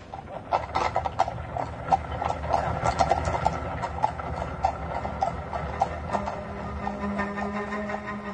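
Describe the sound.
A black horse-drawn carriage clip-clops along at an unhurried pace. Many even hoof strikes ring out over a low, steady rolling rumble.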